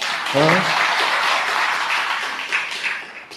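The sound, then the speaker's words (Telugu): An audience claps during a Telugu spiritual talk: a burst of clapping mixed with a brief voice at the start, then continuing steadily before tapering off. “Vaikuntham అన్నప్పుడైనా ఆనందంతో చప్పట్లు కొట్టలేకపోతే ఇంకెలాగర్రా మీరు.”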